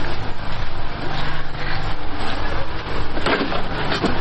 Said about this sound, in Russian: Воды на сегодняшний день нет, это генератор, из-за этого есть электроэнергия.